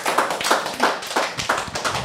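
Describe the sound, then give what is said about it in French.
Group applause for a participant after their turn, clapping in a steady, even rhythm of crisp bursts at moderate loudness with no talking over it. “Bon, bah, on t'applaudit.”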